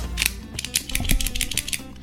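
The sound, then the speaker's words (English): Cigar cutter snipping the cap of a Gurkha Ghost cigar with an Ecuadorian Connecticut wrapper, producing a quick run of sharp mechanical clicks and snaps at a fast, uneven rhythm, with no talk. “An absolutely perfect cut on this Gurkha Ghost Connecticut.”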